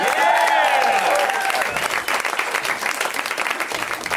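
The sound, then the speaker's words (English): Audience applause at a live comedy show, loud clapping mixed with cheering and whooping voices in the first couple of seconds, then settling into steadier, slightly fading applause. “Put your hands together. Put your hands together. Put your hands together.”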